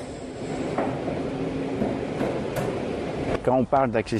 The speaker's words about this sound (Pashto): خو اخر هغه ټرین ته اوچت شو